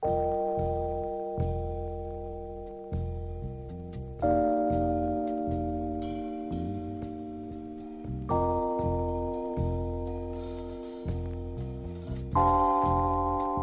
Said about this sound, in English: It's really a special effect that's unique to this Rhodes piano. It sounds something like this.